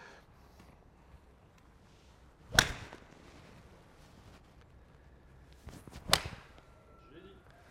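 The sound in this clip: Two crisp golf club strikes on balls at a driving range, each a sharp swishing crack several seconds apart, over a faint, quiet outdoor background.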